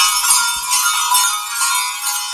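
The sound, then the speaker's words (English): German sleigh bells on a strap, shaken in a continuous bright, shimmering jingle with gentle rhythmic surges in loudness and no voices. “Now here is those German sleigh bells right here.”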